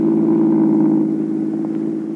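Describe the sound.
A staged sound effect of a car driving home from downtown: a steady, low engine hum that holds evenly and eases off slightly toward the end.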